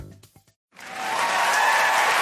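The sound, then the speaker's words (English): Applause in a radio advertisement for the ZipRecruiter job site: after a few short sounds and a brief silence, a dense wash of clapping swells up quickly and then holds steady and full to the end. “Sadly, that applause wasn't for me. It was for the number one rated job site in the U.S., ZipRecruiter.”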